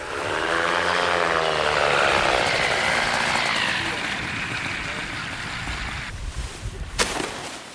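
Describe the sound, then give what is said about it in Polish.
A motorized hang glider flies in to land, its propeller engine a loud, buzzing drone with wavering tones early on, easing after a few seconds into a softer rumble with wind noise and a brief sharp crack near the end. “To nie Sasza, to jest jej kolega z ekipy, który, jak się właśnie dowiedzieliśmy, lata na moto lotni”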